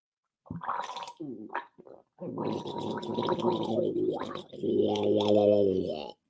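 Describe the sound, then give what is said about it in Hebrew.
Gargling of colloidal silver water by a man with a slight cold: a few short wet sputters, then two long, bubbling gargles with a brief pause between them, loud and alone. “אני טיפה מקורר, אני שותה מי כסף, אני אגרגר לכם בשידור חי.”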